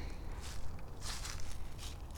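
Footsteps on an outdoor walk, a few soft steps at an uneven pace over a steady low rumble of background noise.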